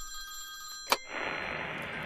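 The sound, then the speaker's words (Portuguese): A telephone rings for an incoming call on a listener call-in line: one short, bright ring burst among steady electronic tones, followed by hissing line noise as the call connects. “deixa eu atender aqui a segunda ligação, vamos aproveitar.”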